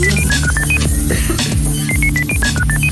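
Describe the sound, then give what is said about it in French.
Dialing beeps of a telephone number being entered, a quick run of short, high electronic tones at shifting pitches, first in a rapid cluster, then a lone beep, then another fast series, all over loud, steady background music. “Il est temps que la régie compose le numéro.”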